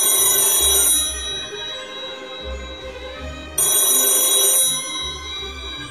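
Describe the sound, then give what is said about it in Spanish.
A telephone rings and goes unanswered, with two long trilling ring bursts separated by a pause of nearly three seconds. Low background rumble continues between the rings. “Y llamó de nuevo, pero tampoco contestó.”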